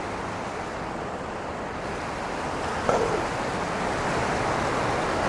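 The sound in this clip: Water cascades steadily into a memorial pool at the site of a fallen World Trade Center tower, a constant dense rushing roar that never breaks.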